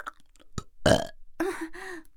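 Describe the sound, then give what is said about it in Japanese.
Burping, with a few small mouth clicks at first, then a short pop and a loud, rough burp. A longer, voiced belch follows, with a steady low tone. “ごめんなさい、あんまりにも美味しくてゲップが止まらないの。”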